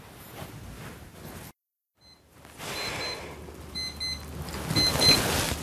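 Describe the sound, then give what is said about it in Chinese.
An alarm clock rings in faint, repeated high electronic beeps over a soft hiss, with a brief silence partway through before the beeping returns. “这是一个闹钟，我把闹钟关掉。”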